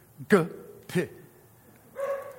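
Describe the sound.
A dog barking, with three short, sharp barks. The first two come close together and a longer bark follows after a pause.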